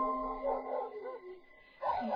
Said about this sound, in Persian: صدای پارس سگا یه لحظه هم قطع نمی شد.